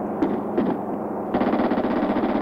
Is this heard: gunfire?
yes